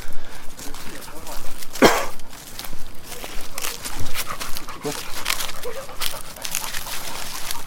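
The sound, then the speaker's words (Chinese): A large Labrador retriever moves alongside walkers, with soft dog sounds and footsteps scuffing under near-constant talk. “我们出行身边有一个有一只很大的拉布拉多跟我们一起。”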